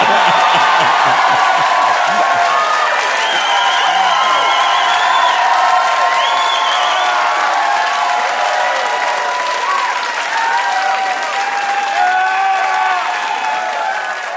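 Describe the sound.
A theater audience applauds and cheers. Loud, sustained clapping mixes with whoops and cheering voices, holding steady throughout and easing slightly at the end.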